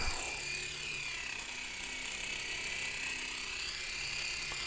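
A small toy remote-control helicopter flying, its tiny motor and rotor making a faint, steady, high buzzing whir that continues without a break, with no voices.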